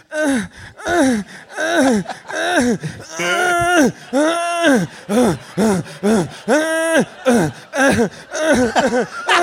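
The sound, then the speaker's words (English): Panting and whimpering from a film's slow-motion scene of a secret agent: a long, steady run of loud, breathy, voiced gasps with moaning tones that rise and fall. “that whimper is really unbecoming of a secret agent.”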